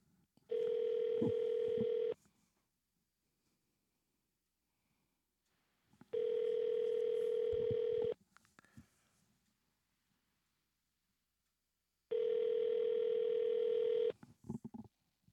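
Telephone ringback tone on a call to an Alaska number: three long, steady buzzing tones, each lasting about two seconds, separated by roughly four-second gaps of silence.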